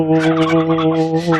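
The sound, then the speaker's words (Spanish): A turkey gobbles in one loud, continuous warbling call that holds a steady, buzzy tone for about a second and a half. “Como los pavos.”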